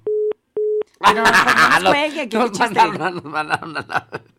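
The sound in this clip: Two short, steady telephone tone beeps from an outgoing call sound alone at one pitch. People then talk and chuckle.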